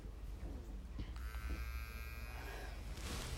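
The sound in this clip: Vibrator buzzing, a faint steady electric hum with a bright, tonal edge that holds for roughly a second and a half in the middle, over low background noise.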